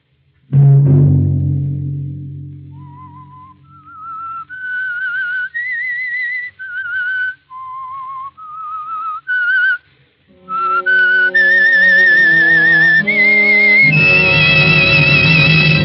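The Whistler's eerie signature tune: a low thud, then a slow, wandering melody of single held whistled notes that rise and fall. Instrumental music joins in the second half and builds to a loud, full finish.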